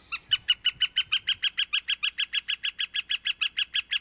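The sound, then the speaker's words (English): A northern flicker calls in a long, steady series of over twenty sharp, evenly spaced notes, bright and fairly loud, repeated at a brisk, unchanging rhythm with no voices. “take a deep breath and immerse yourself in the soothing sounds of this northern flicker.”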